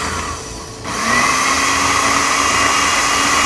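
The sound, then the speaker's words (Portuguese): A food processor blends beans into a smooth paste, its motor switching on after a quieter moment and then running at a loud, steady, high-pitched whir. “E vou processar. Vamos bater? E a minha meta aqui é ficar com os feijões bem dissolvidinhos, tá? Bem dissolvidinhos. Uma pasta com feijão bem dissolvido. Vamos processar.”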